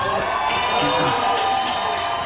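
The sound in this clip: Crowd cheering at a Texas rally as the Democratic Senate nominee is introduced, a loud, sustained roar of many voices with whoops and shouts mixed in, holding strong for the whole stretch.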